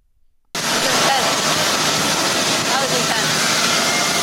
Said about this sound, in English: Their bodies are immediately washed to help prevent the spread of diseases like E. coli.